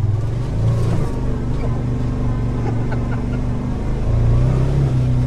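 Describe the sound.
An off-road vehicle with lockers and low gearing crawls down a steep trail, its engine giving a steady, loud, low rumble that drones evenly with small shifts in tone.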